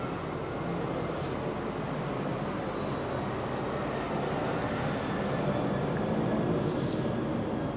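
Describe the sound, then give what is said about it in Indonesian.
An airplane passing overhead gives a steady, broad roar of engine noise that holds fairly even and grows slightly louder toward the end. “Tiba-tiba kok pesawatnya lewat.”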